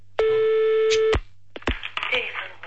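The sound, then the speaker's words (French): A telephone call to a TV station is dialed: one steady electronic tone lasting about a second rings out, then voices talk after it. “Et après, on appelle TF1.”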